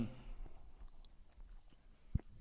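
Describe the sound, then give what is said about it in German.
Soft chewing of someone eating, faint moist smacks and mouth noises scattered throughout, with one sharper click near the end. “Sorry, ich bin am Essen, kann ich reden.”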